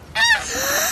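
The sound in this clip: A goose honks once, a loud, nasal, strongly harmonic call lasting under a second, with no other sound.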